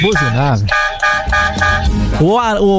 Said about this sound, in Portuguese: Vamos pro buzinaço. Os caras querem buzinar,